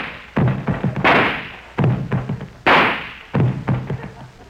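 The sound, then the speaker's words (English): Pistol shots fired in a dramatized gunfight: a few sharp, loud blasts with decaying tails, set among repeated dull thumping transients. “As soon as I got within pistol range, I drew my gun and fired.”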